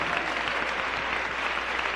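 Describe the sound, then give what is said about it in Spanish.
A church audience applauds, a thick, steady wash of many hands clapping at an even loudness for two seconds with no voices over it. “Dele un aplauso al Señor cuando tú, dice el Señor, me des el primer lugar.”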